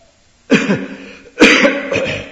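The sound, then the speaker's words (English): Coughing: two harsh, loud coughs about a second apart, the second trailing into a shorter, rasping follow-up burst, with near silence before the first. “now I'm coughing. I'm allowed to cough.”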